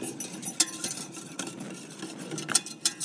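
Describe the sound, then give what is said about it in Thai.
A whisk stirring a vitamin B3 mixture in a bowl: soft, continuous swishing and scraping, with a few sharper metallic clinks standing out. “เราจะใช้ตะกร้อคนก่อนก็ได้นะคะเพื่อส่วนผสมมันเข้ากัน”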